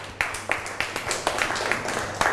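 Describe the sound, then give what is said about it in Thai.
Children clap for a group of classmates, praised by their teacher. The clapping is faint, with many claps in a brisk, fairly even beat. “เก่งมากปรบมือให้กลุ่ม2ค่ะ”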